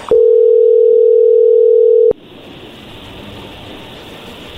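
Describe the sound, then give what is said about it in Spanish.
Telephone ringback tone while placing a call to Colombia: one loud, steady, even tone holds for about two seconds, then cuts off abruptly into quiet line hiss. “Vamos a llamarle a Colombia”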